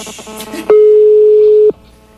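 A telephone ringback tone sounds while a call is placed: one loud, steady, pure pitched tone lasting about a second, cutting in abruptly and stopping just as sharply, with faint background sound before and after.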